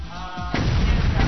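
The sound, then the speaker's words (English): Mortar fire in a video game capture-the-flag match: a sudden heavy boom breaks in after a brief tonal sound, then rolls into sustained rumbling with a second thump near the end. “But Outlaw Phantom's mortar takes out Freakaphonics.”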